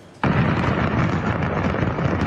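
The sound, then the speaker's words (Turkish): An explosion at a fireworks factory in Changsha, Hunan, China, captured on amateur video: a sudden loud blast breaks in, then a dense, continuous roar of rumbling noise carries on steadily. “Havai fişek fabrikasındaki patlama amatör kameraya böyle yansıdı. Çıkan dumanlar yüzlerce metre yükseldi.”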